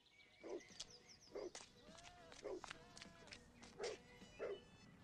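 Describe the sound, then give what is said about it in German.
A dog named Franz Josef barks at a car: several short, sharp barks spaced irregularly, heard under people talking in German. “Der Hund bellt wegen dem Auto.”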